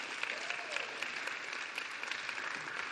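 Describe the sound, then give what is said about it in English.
An audience applauds to welcome a guest as he comes up. Dense, even clapping runs steadily throughout, with a few louder individual claps standing out. “So would you put your hands together and welcome Mr. Bernie Moore as he comes.”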